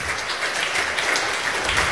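Audience clapping during a political debate on disarmament: a steady, fairly loud wash of many hands applauding, even in level throughout, with no voices over it.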